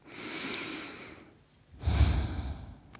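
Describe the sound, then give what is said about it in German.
A deep breath in and out: a soft, airy breath lasting over a second, a brief pause, then a fuller, louder breath trailing off, with no speech. “dafür schließt einmal kurz die Augen und atme ganz tief durch”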